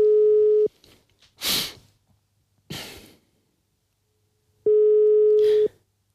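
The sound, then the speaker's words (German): Telephone ringback tone while placing a call: two steady mid-pitched tone bursts about four seconds apart, with breathy sighs and exhales in the gap between them. “Ich luf die mal an. Anrufen.”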